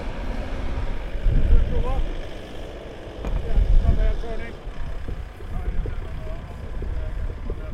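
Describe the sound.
A machine rumbles with a low, uneven drone that swells and eases as it is driven on a test run by an operator wearing a control box on his stomach. Wind noise and faint voices sit underneath.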